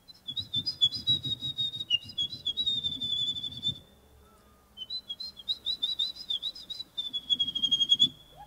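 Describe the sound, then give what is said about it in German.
A person imitating a wren's song at a bird-call imitation contest: rapid, high, twittering chirps and trills in two long runs split by a short pause, with low rumbling noise underneath. “Klingt fast genauso wie ein Zaunkönig.”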